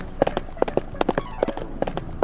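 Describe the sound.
Horse hooves clip-clopping in a quick, uneven run of many hard, sharp strikes, each a short knock, with a faint voice underneath.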